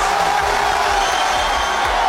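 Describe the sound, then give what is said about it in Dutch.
Crowd noise from fans cheering as Neymar is named to Brazil's national football squad by coach Ancelotti: a loud, unbroken roar of voices with shouts mixed in. “Dat gejuich ging zo'n 2 minuten door voordat bondscoach Ancelotti door kon met het bekendmaken van de selectie.”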